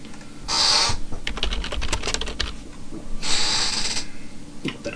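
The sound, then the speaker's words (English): Computer keyboard keys clatter as a search is typed. Rapid, light clicks come in bursts, and two brief hissing swells rise and fade between them. “You didn't find a file when you typed in Google evil.”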